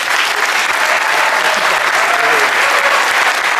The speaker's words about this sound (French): Faites un triomphe à mon petit frère également, à Stena Gloria.